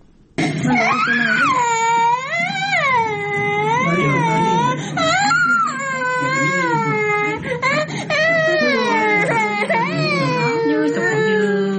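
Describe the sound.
Malnourished children cry from hunger during a severe food shortage. The loud, continuous wailing sobs waver up and down in pitch with barely a pause.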